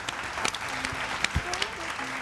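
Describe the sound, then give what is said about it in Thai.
Applause from a group clapping for themselves at a children's drawing session: a soft, steady patter of many hands with a few sharper claps, voices audible over it. “เอาปรบมือให้ตัวเองด้วยครับเก่งมาก”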